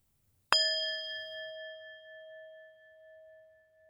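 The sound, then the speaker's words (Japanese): A metal singing bowl rings out from a single clear strike, its bright overtones sustaining and slowly fading over several seconds, faint and alone. “お寺の ASMR？ 違うんだ。これはシンギングボール。”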